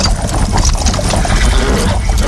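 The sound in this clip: Horse hooves clip-clop in a steady run of many sharp knocks over a constant noisy background. No clear voices are heard.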